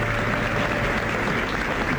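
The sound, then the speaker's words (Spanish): Applause fills a full theatre after a singer's concert: a dense, continuous clapping from a large audience that stays loud and even throughout, with no talk over it. “Aplauso unánime. Teatro lleno.”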